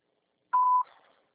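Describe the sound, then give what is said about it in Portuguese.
A voicemail recording beep sounds once as a clear, steady mid-pitched tone lasting about a third of a second, then fades quickly into silence. “Sua chamada está sendo encaminhada para a caixa de mensagens e para a sujeita cobrança após o sinal. Após o sinal, grave sua mensagem.”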